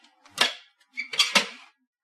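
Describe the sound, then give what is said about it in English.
A latch on a kitchen cabinet pull-out hidden in the toe kick being pressed: two short clusters of sharp, bright clicks and rattles, the second made of several quick snaps. “Now hit the little latch with your right hand.”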